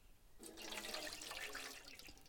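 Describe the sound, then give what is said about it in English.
Faint water splashes and trickles as two feet are washed, giving a continuous soft watery wash with small irregular splashes. “I'm just going to wash two feet, one of each person.”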